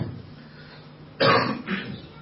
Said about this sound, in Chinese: 感冒有点咳嗽啊